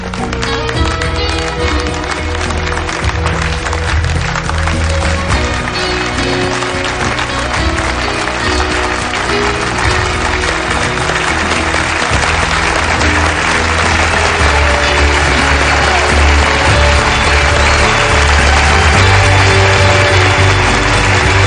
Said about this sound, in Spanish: Poco a poco los asistentes se van poniendo en pie muy emocionados. Hasta su suegro se aparta y aplaude también efusivamente.